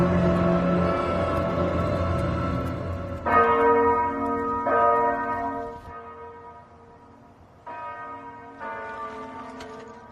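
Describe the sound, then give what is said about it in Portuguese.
A small bell rings in a Game of Thrones scene at a city gate, with a few separate strikes, each leaving a bright, sustained ringing tone that slowly fades. The strikes are loud and stand alone, with no voices. “Mas ele fica olhando pro sino. Não, e ele vê todo mundo queimado ali já no portão, né? Sim, sim. E aí já passou ali no portão. Toca o sino pequenino.”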